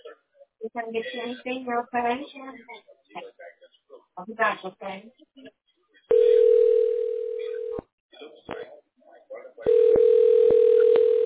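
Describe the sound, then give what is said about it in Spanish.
Telephone dial tone while a call is being placed: a person talks first, then two long, steady, loud tones follow, separated by a short break with brief clicks. “ahorita estamos llamando”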